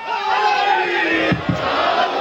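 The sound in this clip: A crowd chanting religious slogans at a gathering, many voices joined in a loud, sustained chorus, with two sharp shouted accents close together in the second half.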